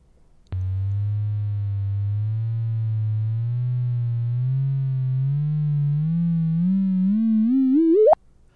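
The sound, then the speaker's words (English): A sonified gravitational-wave signal from two rotating black holes colliding: a steady low tone with harmonics wavers and slowly climbs for about eight seconds, then sweeps sharply upward to an abrupt stop. “let's have a listen to two rotating black holes in the act of colliding with each other.”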